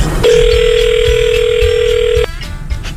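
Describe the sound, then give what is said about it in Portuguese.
Telephone ringback tone while placing a call: one steady, loud electronic tone lasts about two seconds, then cuts off, leaving low background noise. “novo, vou ligar de novo, ligar de novo. Vamos ligar. Vou ligar de novo.”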